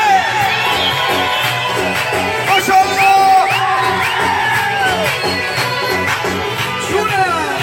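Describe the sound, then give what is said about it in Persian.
A concert crowd celebrating a singer in Faruj cheers loudly, with shrill whistles sweeping up and down in pitch over continuous screaming and shouting voices. “هر چقدر ارادت دارید به اون هرمند عزیز صدای سوتا و جیغا بیاد بالا.”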